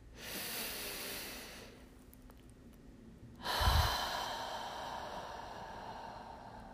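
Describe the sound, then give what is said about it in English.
A deep, slow breath during a guided calming exercise: a long, steady airy inhale, a brief lull, then a longer, louder exhale that trails off evenly. “Let's take a deep, slow breath in together.”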